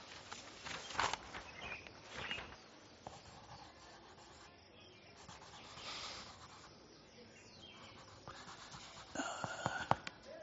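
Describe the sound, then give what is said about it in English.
Handwriting on a surface makes faint, scratchy rubbing strokes that come in irregular bursts, louder near the start and end. “Then here, write on this.”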